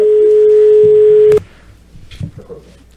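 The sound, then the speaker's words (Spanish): A telephone tone sounds after a dropped call-in phone call: a loud, steady single-pitch note that holds for over a second, cuts off abruptly, and gives way to faint low murmuring. “se cortó la llamadita”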